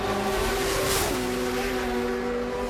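Motorbike engines roar in a continuous loud drone with a steady humming tone that drops slightly in pitch about halfway through, with no talk over the noise.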